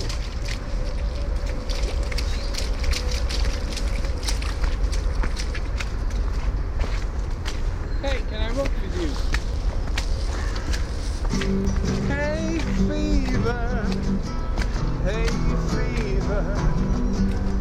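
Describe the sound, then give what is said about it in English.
Footsteps walking over pebbles on a muddy path, a steady run of crunching steps that continues under people talking. “It's easier to walk over the pebbles.”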